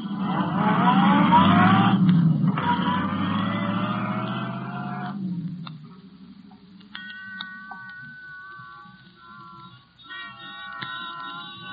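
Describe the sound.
A car engine roars and pulls away, its pitch climbing through two accelerating surges over about five seconds before dying off, with faint tones afterward.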